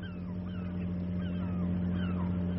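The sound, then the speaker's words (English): A motorboat's engine as it approaches a ship at sea, heard as a faint, low, steady droning hum with no change in level. “That motorboat appears to have at least two passengers.”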